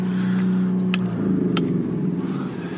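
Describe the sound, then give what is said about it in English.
A generator engine runs with a loud, steady hum that turns rougher and more uneven partway through as it is shut off. “Just shut the generator off here”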